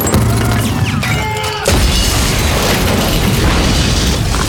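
A grenade explodes during a military assault, a heavy boom bursting in after loud noisy commotion, its roaring rumble sustained to the end.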